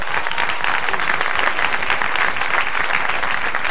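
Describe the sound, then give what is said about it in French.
Sustained audience applause for the speakers at a gathering: dense, even clapping that stays loud and steady from start to finish, with faint crowd murmur underneath. “J'aimerais bien qu'on acclame tous les intervenants.”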